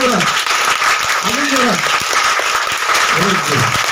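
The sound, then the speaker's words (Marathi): An audience gives loud, sustained applause for teachers at a children's home gathering. Dense clapping fills the whole stretch, with voices calling out underneath. “जर जरा या सर्व शिक्षकांसाठी जोरदार टाळ्या वाजवू आपण.”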